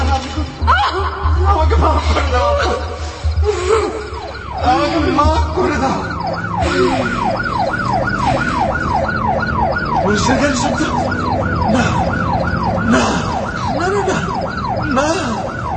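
A police siren wails in fast, regular rising-and-falling cycles, loud and steady from a few seconds in to the end, after a noisier, mixed opening.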